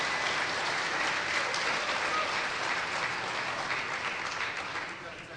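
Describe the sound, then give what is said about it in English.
Audience applause welcoming a speaker, a thick, continuous clatter of many clapping hands that stays steady for several seconds before easing slightly toward the end. “Let's give this guy a big hand.”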